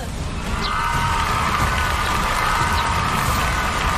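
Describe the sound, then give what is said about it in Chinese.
Crowd cheering for a team during audience voting at a stage competition: a sustained, loud wall of shouts and whoops that holds steady throughout, with a faint high tone running beneath. “首先是我们的国潮队，来听到你们的欢呼声，”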